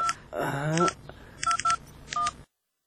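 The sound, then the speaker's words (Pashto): A telephone is dialed to call home: several short, bright keypad beeps come in uneven clusters, and a brief voice sounds early on between the first tones. “ته صبر، زه کور ته یو زنګ ووهم. زنګ ووهه.”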